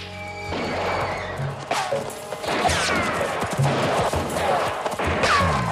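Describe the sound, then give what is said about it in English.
Gunfire is fired down from the top of a slope at an outlaw gang. A few sharp, loud cracks and crashes break through a busy, dense background in an irregular burst of shots. “Garrett and his men watch from the top of the slope. They fire down at Billy's gang.”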